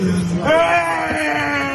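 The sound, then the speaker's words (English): A grieving father wails over the body of his only son: a loud, wavering, drawn-out cry of anguish with an unsteady, sliding pitch. “His father is inconsolable, wailing over the body of his only son.”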